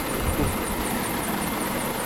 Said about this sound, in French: c'est de là que va décoller l'hélico, c'est un lynx là, qui va nous emmener à bord.